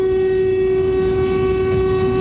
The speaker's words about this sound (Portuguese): Tá acabando o buzinaço.